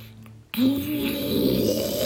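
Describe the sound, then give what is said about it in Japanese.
Loud snoring captured overnight by a sleep-tracking recording, likened to an earthquake; after a half-second hush, a rough, low droning snore starts abruptly and holds steady to the end. “なんで僕の時はもうね、いびきがね、10回分取れてるんですけども”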